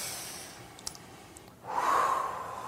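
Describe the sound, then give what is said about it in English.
A deep breath taken during guided relaxation. After a quiet pause it comes as a soft, breathy whoosh that swells and holds to the end, with no talk over it. “Take a deep breath.”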